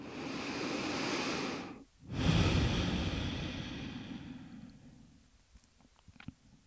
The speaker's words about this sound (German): nimm drei tiefe Atemzüge hier in den Herzraum